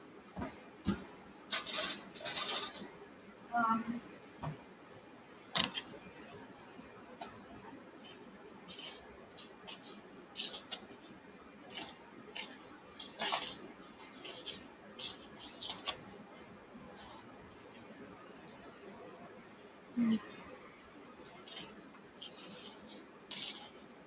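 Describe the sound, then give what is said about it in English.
Scraping and rubbing as an Oreo dessert crust is mixed, faint, irregular bursts of gritty stirring separated by quieter gaps, with a few sharper clinks. “Now we gotta mix the crust.”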